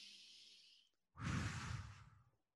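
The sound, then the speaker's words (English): A person takes a deep breath, heard as a soft, airy hiss, then a brief pause and a louder, fuller rush of breath that fades out, with no speech. “So if we take a deep breath in, we go,”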